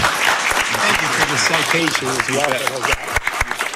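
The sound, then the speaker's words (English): Applause from people attending an award ceremony for a bicycle spokesperson honour: a rough wash of clapping with a voice speaking over it the whole time, and a few sharper claps standing out near the end. “A big round of applause from those folks in attendance as well.”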